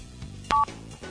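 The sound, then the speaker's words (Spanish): A single short telephone keypad tone sounds while a call is being placed, one clear steady beep rising briefly out of a quiet low hum. “Porque se cortó la llamada, lo teníamos en línea, pero ahí se está llamando,”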